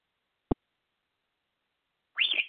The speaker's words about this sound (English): Hey, no screaming, salty bird.